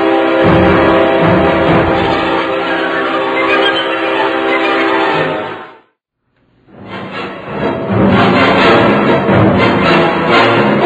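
A train horn blares loudly at a station in a long, harmonic blast that cuts out briefly near the middle, then returns as a second sustained, loud blast.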